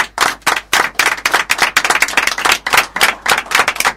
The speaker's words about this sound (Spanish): me gustaría que todos nosotros le demos un aplauso al Chimba